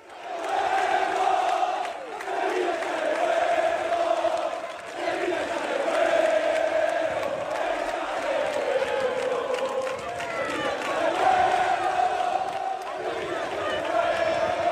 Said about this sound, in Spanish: Parece ambiente de partido, pero es ambiente para recibir a los jugadores antes de un partido, el día antes